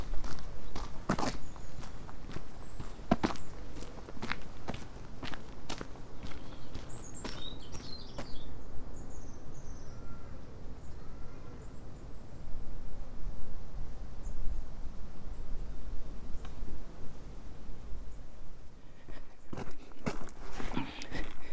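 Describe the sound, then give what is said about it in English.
Footsteps of someone walking across a golf course: faint, steady steps on the ground with occasional sharper clicks, continuing throughout at low volume. “Just walking across the golf course, and I'm always back at the cottage.”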